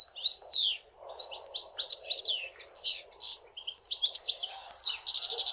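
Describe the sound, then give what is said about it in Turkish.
European goldfinch song: a fast, tinkling stream of high twittering chirps and liquid trills, nearly continuous with brief pauses. Moderately soft, with no voices. “Şimdi bir sakayı dinleyelim.”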